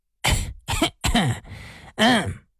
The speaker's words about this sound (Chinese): 干咳了两声说道